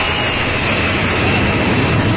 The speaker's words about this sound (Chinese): 从无到有，国产大飞机一飞冲天